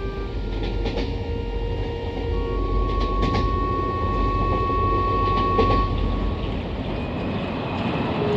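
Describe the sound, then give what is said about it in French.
A train crowded with prisoners travels and halts beside a large forest: a loud, continuous rolling rumble carries high, thin metallic squeals drawn out over several seconds, with a few sharp clicks scattered through it. “Le train s'arrête à côté d'une grande forêt.”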